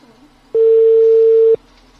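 A telephone ringback tone sounds while a call goes out: a single steady, mid-pitched beep lasting about a second, with quiet background before and after.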